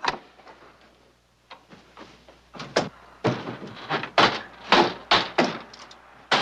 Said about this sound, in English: Actual sounds of Japanese destroyer exploding in Leyte Bay, complete with boiler hissings, fantail cracking, and smokestack exploding.